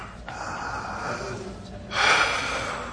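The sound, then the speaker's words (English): A deep breath drawn in sharply: one loud, rushing, slightly nasal inhale about two-thirds through, after softer breathy noise. “Deep breath.”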